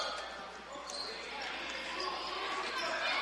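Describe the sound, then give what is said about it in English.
Basketball dribbled on a court during a women's game, with repeated bounces blending into a continuous wash of crowd noise. “will dribble back up to the top of the key now and reset.”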